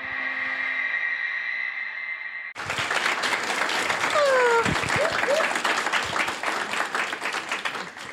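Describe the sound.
Audience applause greets the hosts at a live CrimeCon true crime show. A held musical tone comes first, then loud, dense clapping bursts in abruptly and stays strong to the end.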